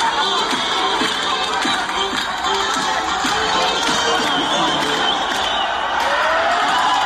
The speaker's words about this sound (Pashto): په هرات ولایت کې هم خلک د دې بریا هرکلی ته راوتلي وو او په لارو کوڅو کې اتڼونه او خوشحالۍ کولې.